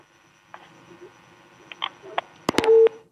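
Telephone call cutting off on a phone-in line: a few sharp clicks and short line noises, ending in a brief steady tone.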